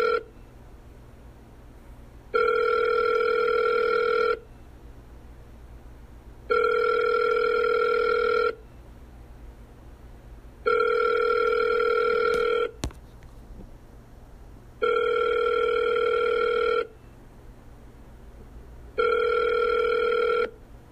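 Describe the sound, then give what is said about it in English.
Ringback tone of an outgoing phone call to a random number that goes unanswered: steady, repeated ringing tones of about two seconds each, separated by quiet gaps of similar length, with no voices. “the call went straight to voicemail”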